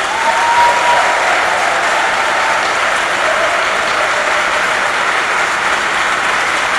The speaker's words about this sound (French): Alors acclamons nos religieuses.